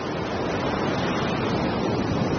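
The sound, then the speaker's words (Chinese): Storm surf from force-12 waves heaving around an offshore platform in the South China Sea, mixed with wind. It is a dense, steady roar with no clear separate breaks, holding an even, moderate level throughout. “12级风暴掀起冲天巨浪，平台在风浪中上下起伏，”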